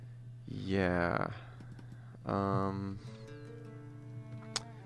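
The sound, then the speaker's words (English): Light, rapid clicks of typing on a computer keyboard continue throughout, with two sustained voiced passages early on and a single sharper click near the end. “Don't mind me if I sound distracted while I type.”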